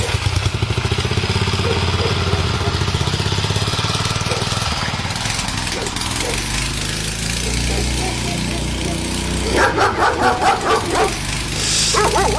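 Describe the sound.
Dogs barking: a burst of loud, rapid barks near the end, preceded by a long stretch of harsh, continuous noisy din.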